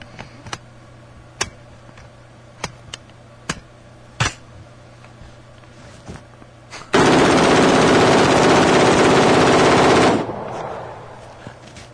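Automatic gunfire from a test-fired gun: several scattered single sharp reports, then a loud, sustained burst of rapid fire lasting about three seconds that cuts off abruptly and fades away.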